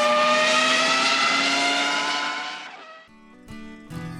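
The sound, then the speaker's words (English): A drag race car engine revs and accelerates with a loud, steady, high-pitched roar that holds for nearly three seconds, then fades, followed by a few brief, fainter sounds. “you might want to get out of the way because we're holding drag races in the store now.”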